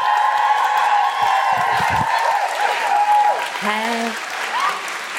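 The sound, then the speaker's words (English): Audience cheering, whooping and applauding as a comedian is welcomed onto the stage at a live comedy show, a loud, dense roar sustained throughout with rising and falling whoops over the clapping. “Please welcome to the stage with enormous Guilty Feminist woohooing”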